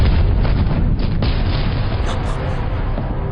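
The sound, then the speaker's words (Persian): An explosion heard as a deep, continuous rumbling roar that stays loud throughout, with a brief dip in the rumble partway through. “زلزله؟ نه نه نه نه انفجاره. باید از اینجا بریم.”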